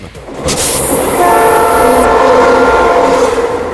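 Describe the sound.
A locomotive horn sounds in one long, loud, steady blast at an even pitch over the rumble and rattle of a passing train, with a bright hiss on top.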